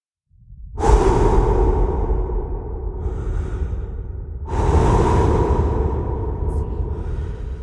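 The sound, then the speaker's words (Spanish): Deep breaths drawn slowly, two long airy rushes of breath, each lasting a few seconds, with no talk. “Cuando respiro profundo, recuerdo que hay un equilibrio entre lo que doy y lo que recibo. Inhalo oxígeno.”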